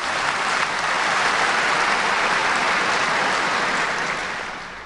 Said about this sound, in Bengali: আমি দর্শকদের হাততালি দিয়ে অভিনন্দন জানাতে অনুরোধ করছি।